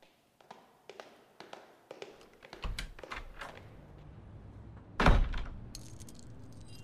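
Keys lock a door: a few light metallic clicks and jangles, then a single heavier clunk as the lock turns, followed by faint rattling.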